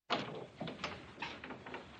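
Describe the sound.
Knocking on a dormitory door: a quick run of several soft, dull raps at an uneven rhythm over a faint, noisy background.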